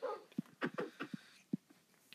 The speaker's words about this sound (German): Ein Hund attackt das Skelett.